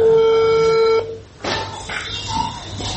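A telephone tone from an unanswered call: one steady, mid-pitched beep holds for about a second and cuts off, leaving only a murky background hum.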